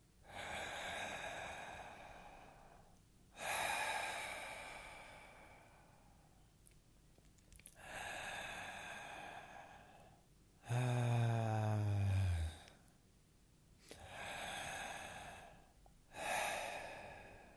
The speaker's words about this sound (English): So take a nice deep inhale into the belly. Sigh the exhale.